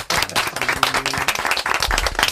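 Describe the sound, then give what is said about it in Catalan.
Applause from a small group welcoming two studio guests: brisk, dense clapping that stays loud and steady throughout. “Un aplaudiment per ells.”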